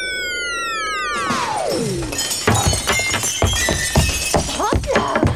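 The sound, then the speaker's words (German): A window pane shatters at a school in a burst of breaking glass, followed by scattered clinks and clatter. A long, falling whistle comes first and leads into the crash. “Wieder eine Scheibe kaputt.”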